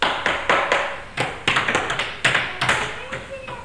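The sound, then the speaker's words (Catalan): Knocking on a door, the wolf at the little goats' house in a fairy tale: many sharp knocks falling in quick, irregular clusters, each rap crisp and percussive. “Se'n va a casa de les cabretes i torna a picar.”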